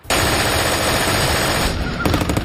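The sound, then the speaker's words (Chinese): Machine-gun and mixed-weapons fire from German positions atop cliffs, aimed at troops landing from the sea: a loud, dense, unbroken roar of rapid shots that breaks into sharper, distinct bursts near the end. “德国人从峭壁上面冒出来，用各种武器朝我们射击。”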